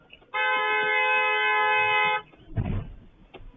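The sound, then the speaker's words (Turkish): A car horn blares in one long, steady honk at a road junction, sounded at a minibus driver, followed by a brief burst of low rumbling noise. “Sonradan savcı olduğu öğrenilen sürücü de defalarca kornaya basarak minibüs sürücüsüne tepkisini gösteriyor.”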